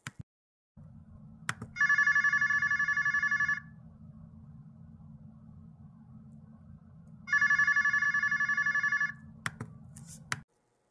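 Electronic ringing of an outgoing phone call: two long, bright ring bursts, each about two seconds, separated by a long pause over a steady low line hum, with sharp clicks before and after.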